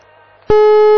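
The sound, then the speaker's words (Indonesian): Busy tone after a phone call is disconnected: a loud, steady buzzing tone starts abruptly halfway through and holds at one pitch, following a quieter low hum. “sayang sekali terputus. Kenapa ya? Apakah itu terkendala jaringan?”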